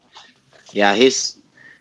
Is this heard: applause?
no

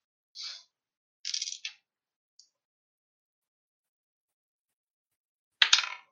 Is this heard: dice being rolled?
yes

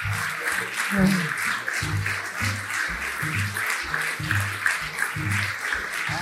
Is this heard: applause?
yes

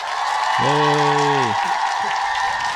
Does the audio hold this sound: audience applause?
yes

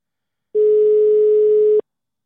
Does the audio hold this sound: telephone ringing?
yes

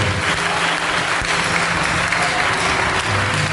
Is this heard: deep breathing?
no

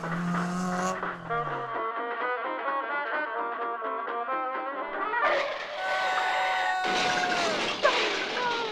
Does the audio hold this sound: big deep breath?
no

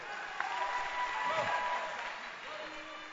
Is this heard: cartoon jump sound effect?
no

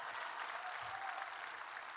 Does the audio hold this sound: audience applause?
yes

